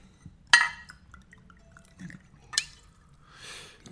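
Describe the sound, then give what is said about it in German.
Wine is poured into a glass to refill it at a dinner table, heard as a few faint glassy clinks and a short, soft liquid rush, with no voices. “würdest du bitte den Wein nachschenken? Ja, natürlich.”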